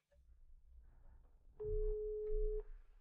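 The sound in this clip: A telephone call being dialled gives one steady, mid-pitched ringing tone lasting about a second. It rises out of quiet low rumbling background noise and then fades back into it.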